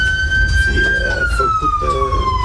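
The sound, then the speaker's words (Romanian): Ambulance siren sounding a loud, sustained high tone that slowly drops in pitch, over a low rumble. “Vlad Brașoveanu este preluat imediat de o ambulanță și merge la Spitalul Sfântul Spiridon”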